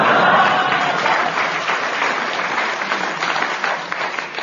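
An audience applauds to welcome a family of guests on stage. The dense clapping starts loud and carries on steadily, thinning only a little toward the end.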